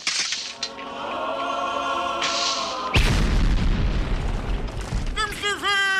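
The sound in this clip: A hand grenade explodes in one deep, heavy boom after sustained voices singing or chanting. The blast leaves a rumbling tail, and brief voices follow.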